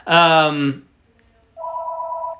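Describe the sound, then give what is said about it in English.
A telephone rings with a steady electronic two-tone warble that starts partway through and holds evenly to the end, preceded by a loud, buzzy harmonic sound and a brief silence. “Somebody get the phone.”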